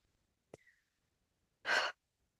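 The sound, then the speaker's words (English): A single deep breath is drawn during a guided meditation: one short, soft, breathy rush preceded by a faint click, surrounded by near silence. “When you really breathe it in, take a nice breath.”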